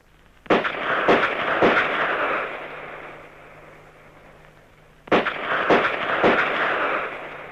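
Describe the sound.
Gunshots at a police shooting practice: six sharp, loud reports in two groups of three, each crack trailing into a sustained noisy decay, with a quieter gap between the groups.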